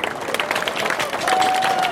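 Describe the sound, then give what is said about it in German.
Audience applause at an event introducing local cycling and pedestrian advocates: a dense, steady clapping texture that holds for about two seconds and swells slightly toward the end. “Und auch einen dicken Applaus für den Ralf.”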